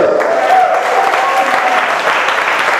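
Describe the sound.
A church audience applauds with dense, steady clapping that stays loud and even throughout.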